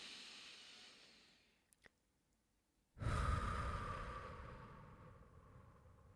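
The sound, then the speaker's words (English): Deep breathing during a guided relaxation exercise. A soft exhale fades into a brief silence, then a strong, deep breath rushes in and slowly tapers off over several seconds. “So we're going to take nice, big, deep breaths together, 3 of them. So nice, big inhale in.”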